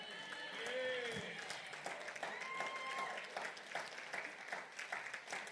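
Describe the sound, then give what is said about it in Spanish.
Church audience applauding in worship, a steady wash of clapping that runs throughout, with voices and talk mixed over it. “Dele un aplauso al Señor, hermano. Amén. Pero es para el Señor. Acuérdese que no es para el vecino, no es para, es para el Señor el aplauso.”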